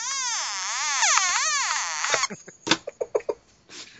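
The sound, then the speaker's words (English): Electronic croaking from an op amp wired to a speaker: a loud, buzzy tone whose pitch sweeps and wavers up and down for about two seconds, then breaks into a string of short, choppy croaking pulses, with no voices. “So an op amp kind of connected to a speaker? Yeah, pretty much.”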